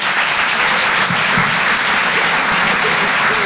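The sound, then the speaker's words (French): Steady applause from a comedy club audience welcoming a stand-up comedian to the stage: a dense, continuous clatter of many hands clapping that holds at an even, loud level throughout. “Je vous demande de l'encourager, s'il vous plaît. Faites du bruit pour Rémi Boy.”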